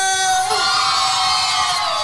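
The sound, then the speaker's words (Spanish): A crowd cheering and shouting for someone being honored, a dense continuous roar of voices with whoops and a faint tonal sound fading early on, loud and steady throughout. “quiero que le brindemos un fuerte aplauso a nuestro Víctor Moreno, WD Record, estudio de grabación.”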